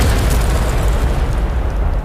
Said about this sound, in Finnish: Mä kuulen ton mun unissanikin viikonloppuna ton räjähdyksen.